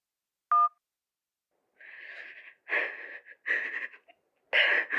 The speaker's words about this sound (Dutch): Gelieve een bericht achter te laten na de toon.